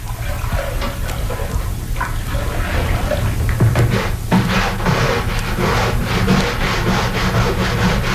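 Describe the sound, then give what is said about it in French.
Hand scrubbing of a kitchen floor during a weekly wash, a rough rasping rub repeated in many steady back-and-forth strokes, loud and rhythmic, going on alone without voices. “Et là, elle frotte son plancher. Ça dure de longues secondes.”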